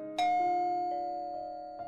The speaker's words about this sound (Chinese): 昏昏欲睡的丽丽被门铃惊醒，猫眼看到似曾相识的面孔，打开了房门。